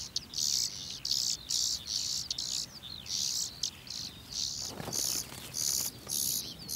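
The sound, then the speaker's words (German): Hungry bird chicks calling in an organically farmed grain field, a rapid series of many high, thin, insect-like bursts that repeat in an even rhythm over a steady faint background hiss. “Futter für die hungrig rufenden Kehlchen.”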